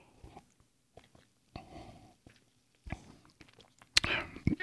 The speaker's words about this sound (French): C'est une bière quand même, je trouve, honnête, assez bien équilibrée. Et je vais en boire dans vos oreilles.